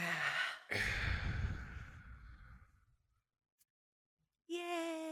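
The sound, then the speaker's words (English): A deep, noisy breath: a short rush of air, a brief pause, then a longer loud breath that fades away over about two seconds. After a near-silent gap, a steady tone enters at the end. “Take a deep breath in.”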